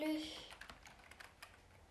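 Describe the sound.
Typing on a computer keyboard while writing a story: many quick, irregular keystroke clicks, faint and soft throughout.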